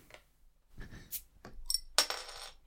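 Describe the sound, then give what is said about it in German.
A bottle is opened in a kitchen: a few light glassy clinks, then a sharp, bright hiss that fizzes on for about half a second. “Ich mache jetzt auch noch eine Flasche auf.”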